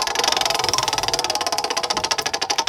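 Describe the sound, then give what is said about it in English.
A prize wheel spinning, its pointer ticking loudly in a rapid, even stream of many sharp clicks. “All right, I am spinning the wheel.”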